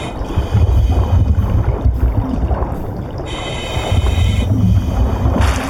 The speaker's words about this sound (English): Looks like I'm gonna go swimming. Might as well use it. Miner's key. Thank you, mole miner. Alright, here goes nothing. Swimming time.